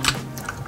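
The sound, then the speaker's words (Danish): Typing on a computer keyboard while playing Blitz Royale at a gaming weekend: a brief run of a few crisp key clicks at a moderate level. “Det, du kan høre her, det er lyden af et tastatur.”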